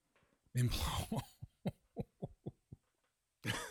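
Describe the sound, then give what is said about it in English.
Someone coughing and clearing something stuck in the throat gives a harsh opening burst, then several short rasping coughs in quick succession, and another rough burst near the end. “I'm over here trying to make a complete sentence and I'm about ready to choke on whatever it was that was in my throat.”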